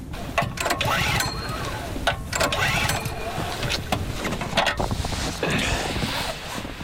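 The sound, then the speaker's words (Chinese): A generator engine struggles and fails to start in minus-ten-degree cold: several sharp, sputtering bursts rise out of a rough, rumbling, wind-buffeted noise. “但零下十度的低温，发电机似乎无法正常启动。”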